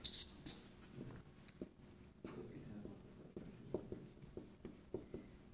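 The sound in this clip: Writing on a board during a lecture on semiconductors such as germanium and silicon: faint scratchy strokes and many small taps in uneven rhythm over soft background noise.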